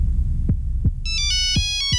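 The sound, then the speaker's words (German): A mobile phone rings with a bright electronic melody of stepping tones that starts partway through, while four heavy low thumps pulse beneath at a slow, uneven beat. “Mein Handy klingelt.”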